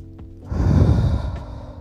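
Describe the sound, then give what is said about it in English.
A single long, deep breath taken during a calming relaxation exercise: an airy, breathy rush that swells and then slowly fades, with no talking. “Inhale, exhale, because we need that right now”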